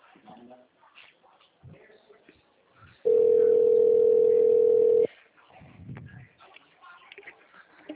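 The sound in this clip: A steady mid-pitched telephone line tone sounds during a call transfer and holds for about two seconds, with faint voices before and after it.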